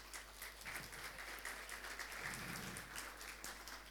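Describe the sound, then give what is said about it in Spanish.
Faint audience applause during a talk, a soft, continuous patter of many hands clapping together at a fairly even level throughout. “Una mujer dice, muy bien, ¿sí? Le damos un aplauso”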